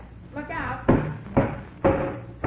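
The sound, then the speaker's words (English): Knocking on a sawed-out piece of wood around the doorknob of a bathroom door: four sharp, loud knocks at uneven intervals, coming right after a short stretch of talk. “see if you can knock that piece out. What thing? The piece of wood around the doorknob that I just sawed.”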